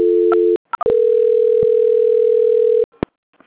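A telephone line tone during a call transfer: a steady low tone, a brief gap with two short blips, then a longer sustained tone that cuts off, followed by a single click and near silence.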